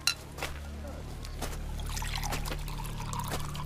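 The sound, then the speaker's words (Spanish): Water poured for friends in a communal kitchen, heard as an irregular splashing trickle with a few brief bursts over a low steady hum. “sirve agua a sus amigos”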